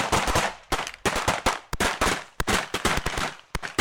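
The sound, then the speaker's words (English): Gunshot sound effect of assassins shooting down a couple: a rapid volley of many sharp, loud cracks, each trailing off quickly, fired in an irregular rhythm with no voices. “After some false persuasion saying they wouldn't be killed, they finally came out of the closet and were immediately shot down.”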